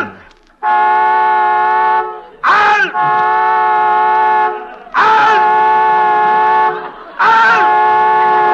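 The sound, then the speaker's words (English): A car horn blares, stuck on by a short after a crash, in four long sustained blasts with brief gaps between them. Short shouted voices break in at the start of the later blasts. “Honking that horn. I'm not honking, sir. There must be a short, sir.”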